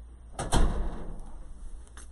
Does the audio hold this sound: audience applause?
no

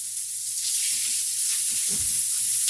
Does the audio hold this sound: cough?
no

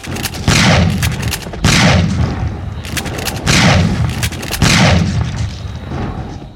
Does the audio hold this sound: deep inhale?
no

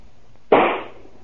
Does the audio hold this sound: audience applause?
no

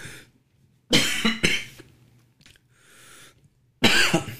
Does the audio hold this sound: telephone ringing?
no

